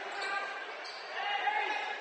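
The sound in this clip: A basketball is dribbled on a court during a game. The soft bounces are muffled beneath a steady wash of arena noise.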